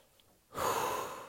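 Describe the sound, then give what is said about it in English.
A single deep breath drawn in, a steady breathy hiss that starts partway through and holds fairly loud to the end, with no talk. “Take a deep breath in.”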